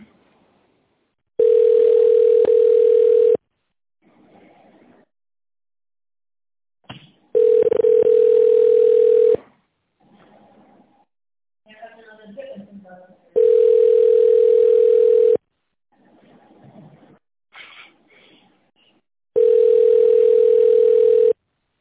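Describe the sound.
Telephone ringback tone plays while a call is being connected: four steady, single-pitched tone bursts of about two seconds each, evenly spaced by longer pauses with faint, softer sounds in the gaps.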